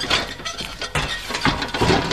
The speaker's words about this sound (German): Ich leg mich auf den Bauch und drücke die Tür auf.